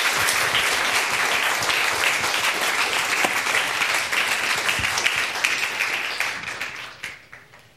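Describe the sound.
Applause from a church audience welcoming a guest speaker: dense, steady clapping from many hands that holds at full strength for several seconds, then thins and fades away at the end.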